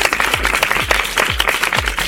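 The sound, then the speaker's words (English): A round of applause from people at home who have just done the actions, a steady wash of clapping. A regular thumping bass beat from music pulses underneath at an even pace. “if you did the actions at home, give yourselves a great big round of applause.”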